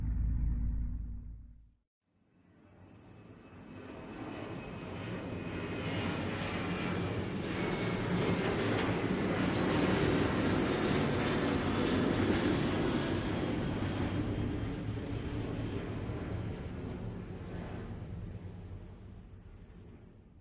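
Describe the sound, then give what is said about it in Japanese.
Airplane engines roar as the plane prepares for takeoff. After a brief low rumble and a short gap, a broad, steady roar swells up, holds for a long stretch, then eases slightly toward the end. “まもなく当機は離陸いたします。”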